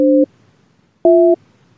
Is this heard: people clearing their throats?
no